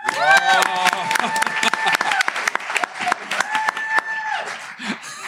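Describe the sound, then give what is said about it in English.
Audience applause at a corporate show as a guest speaker is introduced: many brisk, sharp claps forming a lively, uneven patter that holds steady and then eases toward the end. “Put your hands together for Niall Cameron.”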